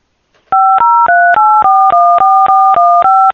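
Ten touch-tone beeps from a Skype dial pad, loud and evenly paced, each a steady two-note tone, with no talking.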